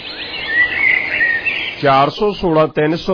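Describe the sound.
Birds chirping in high, thin twittering calls, offered as a sample of the weather outside. A voice begins speaking over them partway through.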